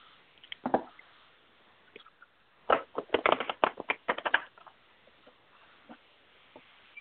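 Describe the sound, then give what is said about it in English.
Playing cards are handled for a card reading: quiet, scattered soft taps, then a cluster of rapid crisp snaps and flicks, and a few sparse taps afterward. “Just going to use my cards today.”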